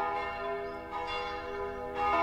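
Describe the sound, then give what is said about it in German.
Church bells ring in a continuous, layered peal of many overlapping strikes, a rich resonant tone that carries on steadily with no voices. “So, es hat ausgeläutet.”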